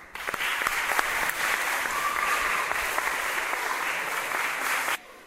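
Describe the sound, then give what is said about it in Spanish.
Applause from an audience at a school environmental-project award ceremony, a steady dense patter of clapping that starts abruptly, holds at an even loud level for about five seconds, then cuts off sharply. “Un aplauso.”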